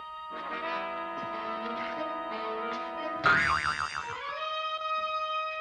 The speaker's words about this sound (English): Release the hidden spring.